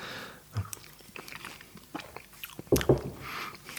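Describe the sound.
Someone chews while tasting food, producing soft, irregular biting and chewing noises. A louder crunchy burst comes near the end, with no voices over it.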